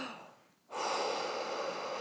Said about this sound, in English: And anyway, you take that big breath.